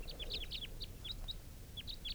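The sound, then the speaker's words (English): A male bird calls near a mist-net approach perch in a faint series of many short, high chirps in quick, uneven succession over low background noise, with no voices. “I have no idea, no way of knowing for sure whether this was the same bird calling before.”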